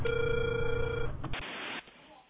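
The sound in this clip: A telephone ringback tone while a call is dialed: one steady mid-pitched tone lasting about a second, then it stops and muffled line noise fades out.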